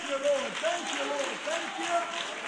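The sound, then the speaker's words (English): A church audience claps their hands together in a steady, dense patter that runs through the whole clip, with raised voices carrying over it. “Yes, let's unite and let's all stand and clap our hands.”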